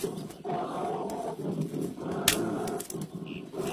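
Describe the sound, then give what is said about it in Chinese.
An angry bear roaring: a rough, continuous growling roar that swells and dips over several seconds, heard alone without talk. “熊大哥，别生气。”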